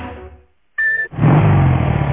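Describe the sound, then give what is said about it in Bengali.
A Honda Hornet 160cc motorcycle engine revs: after a brief quiet gap and a short steady tone, a loud, full-bodied roar kicks in and holds strong and steady to the end. “160cc শক্তিশালী engine নিয়ে রা, real, রেভড আর rocking Hornet”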